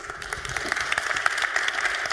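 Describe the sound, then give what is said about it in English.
Audience applause at a hacker conference as a speaker is welcomed: a dense crackle of many hands clapping at a fairly even, moderate level, with no voices over it. “Please give our speaker, Gal, a warm round of applause.”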